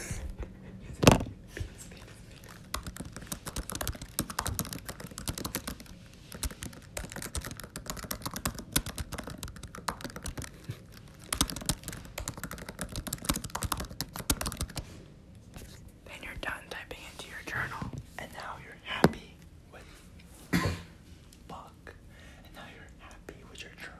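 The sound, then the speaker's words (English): Typing on a computer keyboard to enter a journal entry, with dense bursts of rapid key clicks that thin out toward the end, while a soft whispering voice talks alongside. “you have to type in what you did today. Yeah, you type it into your journal, so you say.”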